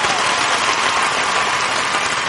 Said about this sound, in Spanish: Ustedes no dejan de aplaudir y nosotros no dejamos de cantar hasta que les quite lo que pagaron.